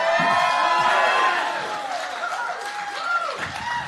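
An audience at a live radio show in the Buttonball Barn in South Egremont, Massachusetts, cheers and applauds loudly. Whoops and shouts ride over a continuous wash of clapping that eases slightly but stays strong throughout.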